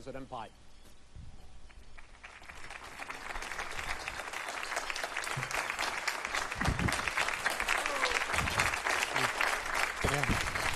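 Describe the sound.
Audience applause at a US presidential debate as Donald Trump and Joe Biden walk on stage, dense clapping that swells from a quieter start and then holds steady and full to the end.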